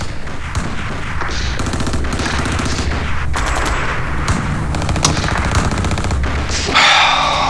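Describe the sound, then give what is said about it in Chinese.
Battle gunfire fills the scene: dense, sharp shots and rattling machine-gun bursts overlap in a loud, unbroken barrage, with occasional heavier booms punching through. “你能不能让我打完这场仗你再毙我？ 不能再耽误时间了，你听，你听听，耽误一分钟那是多少条命啊！”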